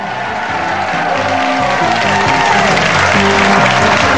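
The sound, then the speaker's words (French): Loud, dense cheering and screaming from a television studio audience of people from Quebec, a continuous wall of crowd noise mixed with applause that holds steady for the whole stretch. “vous avez remarqué, ça crie beaucoup plus fort ici en studio qu'au Colisée, n'est-ce pas?”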